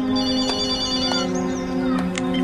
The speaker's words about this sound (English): He picks up the phone and dials.